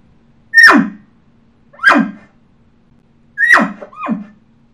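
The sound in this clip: Imitated elk bull barks made by a champion elk caller: four short, sharp calls, the last two close together. Each starts as a high squeal and drops abruptly to a low grunt. They are loud and stand alone, with silence between them.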